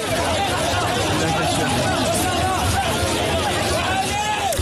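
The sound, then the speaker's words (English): Dense crowd babble as migrants come off a beach into the streets of Ceuta: many overlapping voices and shouts in a continuous, even hubbub. “This is the sound of some of those thousands as they came off the beach and headed for the streets of Ceuta on Thursday.”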